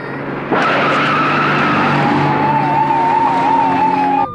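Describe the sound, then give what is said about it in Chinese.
A car accelerates hard with screeching tires. The engine noise swells abruptly after a moment and then holds loud and steady, with a wavering high tone in the later part. “加速，快开！”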